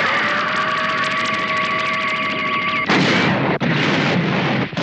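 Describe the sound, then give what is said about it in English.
Laser blast firing from a spacecraft in a sci-fi drama: a steady, humming tonal charge-up that switches abruptly to a loud, broad roaring blast. “Laser blast, fire now. Laser blast on target, firing now.”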